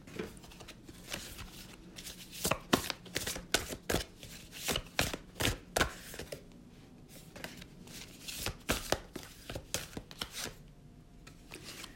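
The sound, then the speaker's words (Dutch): A deck of 50 cards is shuffled in many quick, sharp snaps and slaps. They come in irregular bursts over a soft, quiet background, fairly faint overall. “Ik schud ze even, het zijn 50 kaarten.”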